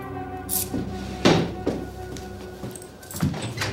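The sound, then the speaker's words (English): A desk door being opened and a key ring lifted out: a few dull wooden knocks and light clattering thuds over a steady tonal background. “Stepping behind Frost's desk, he opens the door and lifts out Frost's key ring.”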